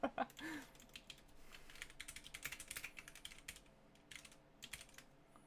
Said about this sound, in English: Okay, do you want me to type it without spelling a word wrong?